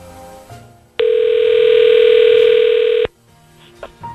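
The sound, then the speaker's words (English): A telephone dial tone sounds as a call is placed: a loud, steady electronic hum that starts abruptly, holds for about two seconds, then cuts off sharply. “All right, we're dialing now.”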